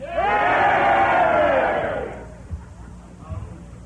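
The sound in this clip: An audience cheers and shouts in answer to a call for a vote at a live show: a loud, sustained roar of many voices for about two seconds that fades out, followed by a couple of brief, faint noises.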